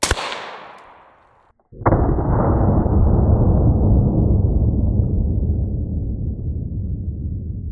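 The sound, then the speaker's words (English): An AR-15 rifle fires a 5.56 full metal jacket round: a sharp, loud report with a long rumbling tail that slowly fades. Before it, a fainter decaying burst dies away into near silence. “Up first is the AR-15, 5.56 full metal jacket. Here we go.”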